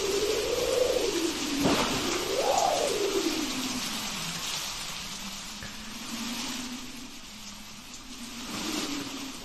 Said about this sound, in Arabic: النور كانت قطع وصوت المطر يخوف.